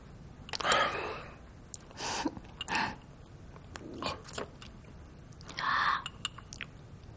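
Someone bites and chews food in a few separate bursts of wet, crunchy mastication, each a short cluster of sound with quiet pauses between and no talking.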